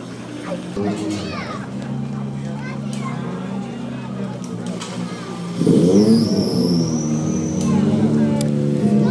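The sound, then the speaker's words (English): A rally car engine fires up at a Ford team service area. It catches about halfway through with a sudden jump to a loud, rumbling roar, then settles into a steady idle while a man talks over it. “That's the sound of Ott Tanak's car firing up, and we've got Petter Solberg reversing out at the minute.”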